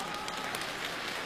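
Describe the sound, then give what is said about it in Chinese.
A short burst of audience applause at a live comedy show, with thick, steady clapping that lasts just over a second. “您给我热烈鼓掌一次，明儿早上起来买彩票最少500万。”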